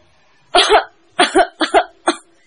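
Short dry coughs from a palace guard in a period audio drama, coming in four tight bursts, most of them doubled into quick hacking pairs, each clear and fairly loud against silence.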